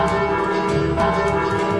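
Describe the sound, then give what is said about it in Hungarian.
A church bell rings with a rich, humming tone, struck again and again at a steady pace, with no voices heard. “De vajon miért és kikért szólt először a harang?”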